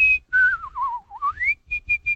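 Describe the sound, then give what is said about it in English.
Artistic whistling of a song melody: a single clear, pure-toned whistle holds a high note, then glides down in a wavering, ornamented line with vibrato and climbs back up, ending in a few short, crisp repeated notes; moderately loud, alone. “There was even a school in L.A. at the time, Miss Woodward's School of Artistic Whistling. She had exercises, kind of a... and she would do the melody of a song and just add a little...”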